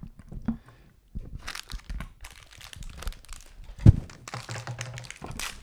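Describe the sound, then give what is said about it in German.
Fortune cookies in wrappers being handled, giving soft irregular crinkling and crunching rustles with scattered light taps and one sharper knock, all fairly faint. “Und das sind die Glückskekse, kleinen Moment.”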